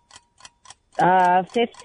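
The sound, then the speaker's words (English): Quiz countdown timer ticks faintly, with three evenly spaced ticks in quick succession, followed by louder sounds. “Here's your timer.”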